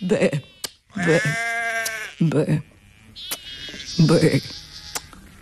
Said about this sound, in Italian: Ma se perfino quella pecora con quei suoi occhietti e quel suo modo di belare mi sta giudicando